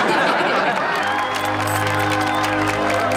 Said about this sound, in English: The crowd applaud as Bert performs a delighted jig.